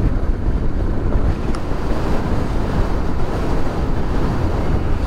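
Wind buffeting the microphone while riding a motorcycle past a lake: a loud, continuous low rumble and roar that holds steady throughout with no clear breaks.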